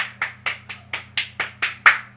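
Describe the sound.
Eight crisp hand claps land in a steady, even rhythm, each a sharp slap with a short tail, over a faint constant low hum.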